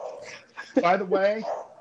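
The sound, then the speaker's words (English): A dog gives a drawn-out, whining bark with a yelping, tonal quality, moderately loud and alone. “This fucking dog will not shut up.”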